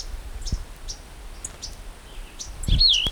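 Two birds, a female chattering and a male singing: a few faint, short high chirps spaced apart, then a clearer whistled phrase that rises and falls near the end.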